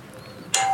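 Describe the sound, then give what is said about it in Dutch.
A doorbell rings with a bright, clear tone that cuts in abruptly after a quiet, faintly humming stretch, then swells again at the very end. “er wordt gebeld. Dan is er iemand. Ik ga wel kijken.”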